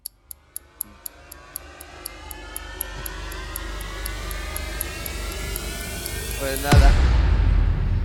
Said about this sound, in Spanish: Bueno, a ver, hay aviones. Hay aviones.